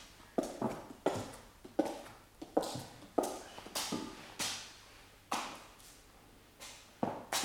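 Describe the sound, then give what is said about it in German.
Knocking at a gate in a stage play of Macbeth: many sharp, fairly even blows, each with a short decay, heard quietly and alone. “Zu Bett. Zu Bett, es klopft am Tor.”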